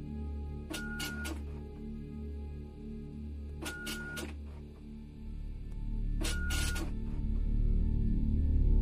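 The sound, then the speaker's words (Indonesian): A printer prints A3-size pages: three bursts of clattering, whirring feed noise rise over a steady low mechanical hum. “Aku browsing gambar hantunya. Setelah aku dapat, aku langsung print seukuran A3. Aku bagi beberapa part.”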